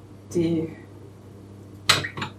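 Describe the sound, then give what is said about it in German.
Dishes clatter as they are loaded into a dishwasher: two short bursts of clinking crockery and cutlery, separated by a quiet pause. “Also ich gebe jetzt auch so quasi alles in den Geschirrspüler, außer der Spätzlepresse.”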